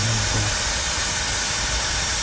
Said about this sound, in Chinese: 打开 APP， 点这个喷药，开启，这就启动了。